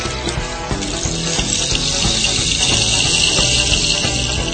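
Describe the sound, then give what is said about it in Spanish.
A rainstick water effect with seeds cascading inside the stick, giving a continuous, fairly loud rushing hiss like running water that holds steady throughout without a break. “Efecto palo de agua, norteño. Se está acabando el agua, palo. Se está acabando el agua.”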